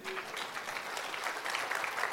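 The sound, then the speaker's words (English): A church audience clapping together, a dense steady patter of many hands, moderately loud and even throughout with no pauses, a faint voice briefly audible at the start. “Can we give the Lord a clap offering now?”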